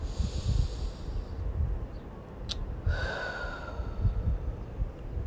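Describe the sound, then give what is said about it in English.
Deep, airy breaths drawn in and let out during a guided breathing exercise, soft inhales and exhales with a slight hiss over a low, steady rumble. “let's take another 3 deep inhales.”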